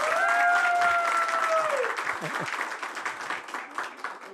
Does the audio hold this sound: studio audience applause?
yes